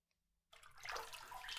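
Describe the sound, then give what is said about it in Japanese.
Water poured over someone in a bath to rinse them: after a brief near-quiet moment, a steady rushing splash starts abruptly and carries on loudly for about a second, with no talking. “それでは、お流しします。”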